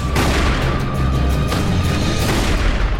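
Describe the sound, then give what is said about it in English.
Gunshots boom through a loud, dense roar of noise. A few sharp blasts stand out against the constant din. “You missed your shot”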